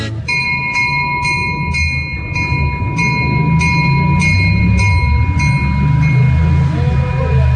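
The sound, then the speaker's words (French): A train pulls out of Lourdes station. A low rail rumble runs beneath a quick, evenly spaced series of bright bell dings over a steady high tone, and the dings fade out after about six seconds while the rumble continues. “Alors là, on sort de la gare de Lourdes”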